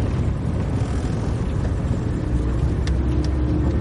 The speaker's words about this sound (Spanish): Luego Sigurdor lleva en su coche a Thor y a Christian.